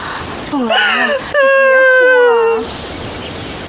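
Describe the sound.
A woman crying in high, wavering wails, two long sobbing cries with a trembling, bending pitch, the second louder and steadier, then fading into breathy, noisy sobs.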